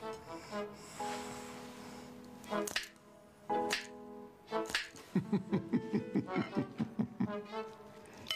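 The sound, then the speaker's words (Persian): Finger snapping with both hands: a quick run of many sharp, crisp snaps in the second half, preceded by scattered tonal sounds and a few louder bursts. “میتونی بشکن بزنی؟ نه دو دستی بگو دو دستی بزنه داداش میشه خواهش کنم دو دستی بشکن بزنیم”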